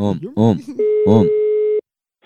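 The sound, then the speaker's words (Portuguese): Telephone ringing tone heard while placing a call, a single steady low-pitched tone lasting about a second, with a voice sounding at the start and briefly over it before silence. “Vou ligar pra Olga.”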